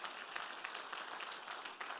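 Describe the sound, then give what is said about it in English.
Church audience clapping together as a worship offering: many quick, overlapping hand claps forming a fairly faint, steady patter throughout. “Let's give the Lord a clap offering today.”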